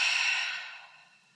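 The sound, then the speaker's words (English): A deep, slow exhale through the mouth as part of a calming breathing exercise, a soft breathy hiss that starts fairly strong and fades away over about a second, heard alone. “So you're going to inhale through your nose. You're going to take a deep exhale through your mouth.”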